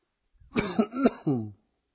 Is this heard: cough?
yes